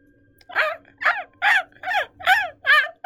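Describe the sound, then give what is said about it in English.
Seagulls calling: six harsh, harmonic cries spaced at a steady rhythm, each loud and clear with a slightly bending pitch, heard alone without voices. “call of seagulls all around you. There's a lot of seagulls around here, actually.”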